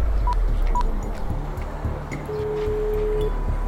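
A telephone being dialed to make a call: a few short, clear dialing beeps, then a longer steady tone, over a low background hum.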